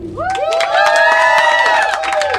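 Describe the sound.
Cheering and excited shouting from a live school audience at an academy, a loud, continuous mass of young voices that holds steady for a couple of seconds.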